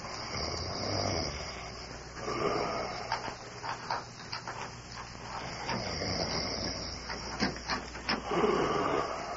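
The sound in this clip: A man faking sleep with soft, breathy snoring: a few slow, rasping breaths rising and falling over a steady background hiss, fairly faint, with no other voices.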